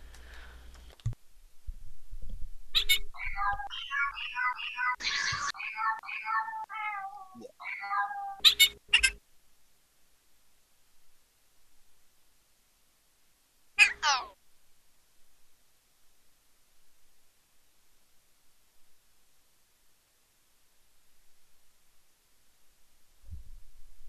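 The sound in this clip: A cat meows insistently, wanting to be let in: a burst of several rapid, high meows, then a long quiet gap and a single short meow, with near silence after that.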